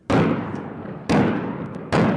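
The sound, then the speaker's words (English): Artillery salvos fire during NATO military exercises along the Danube in Romania on a summer morning: three loud, deep booms, each followed by a long, rumbling tail that fills the gap before the next blast. “Artillery salvos pierce a peaceful summer morning along the Danube River and kick off 3 days of NATO exercises in a country that borders Ukraine.”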